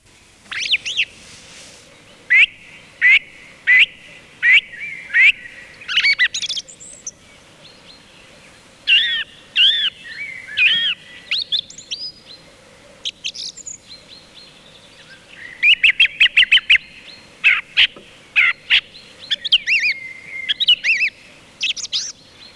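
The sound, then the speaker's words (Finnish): Song thrush singing among coniferous-forest birds: many clear, whistled phrases, often repeated, delivered in bursts separated by short pauses, loud and alone. “Havumetsien lintuja. Laulurastas.”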